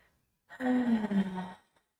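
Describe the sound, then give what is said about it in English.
Loud inhaling and exhaling during a guided breathing exercise: a single long, breathy sigh-like breath with a faint voiced quality, sustained for about a second and heard alone. “Inhaling and exhaling loudly. So keep breathing in and out.”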